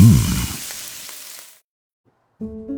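Spam sizzling as it fries: a loud, dense hiss and crackle that steadily fades over about a second and a half, followed by silence and then the start of steady musical tones.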